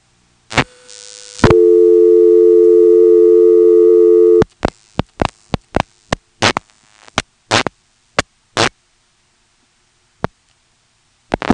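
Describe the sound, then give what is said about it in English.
Telephone trunk line to Woodville carried on T carrier: a short tone, then a loud, steady multi-tone hum for about three seconds, followed by a string of sharp clicks and brief bursts at uneven intervals with quiet gaps between. “And then on that, we'll dial a 3 to get to Woodville. I believe the trunk to Woodville is T carrier.”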